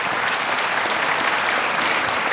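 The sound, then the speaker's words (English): Congregation applause during a sermon: an even, continuous wash of clapping with no voices, steady from start to finish. “you want to applaud that? You can.”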